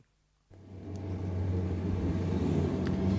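A car's steady low engine rumble on the drive home from a Royal film premiere starts abruptly after half a second of silence and holds evenly to the end, with no voices.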